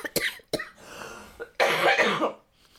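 Coughing by a person: two short, sharp coughs, then a longer, harsher hacking cough that trails off into quiet.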